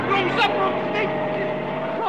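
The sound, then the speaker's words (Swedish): A car engine revs as the vehicle reverses and then accelerates away, giving a steady droning whine with shifting tones that stays loud throughout. “Lägg i backen och trampa på gasen innan det blir folksamling. Nå, trampa på gasen nu så vi kommer härifrån.”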